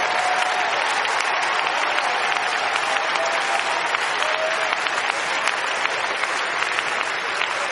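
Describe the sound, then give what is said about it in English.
A church audience applauds, with loud, dense, continuous clapping that holds steady without a break. “Go ahead, give the Lord a big round of applause.”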